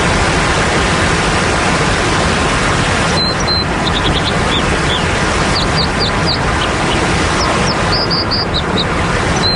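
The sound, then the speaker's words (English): Calls of an American dipper, a plump slate-colored bird, at a waterfall: many short, high chirps begin about a third of the way in, sitting over a loud, steady rush of falling water that fills the whole clip. “This is the sound of the American dipper, a plump, slate-colored bird. It actually lives under waterfalls and builds its nest on ledges precariously perched between the rock and the cascade.”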